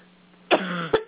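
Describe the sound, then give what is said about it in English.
A woman clearing a tickle from her throat: one sharp, rough, cough-like burst followed by a couple of shorter guttural hacks, brief and close. “clear the tickle out of her throat. Yes, that was a big tickle.”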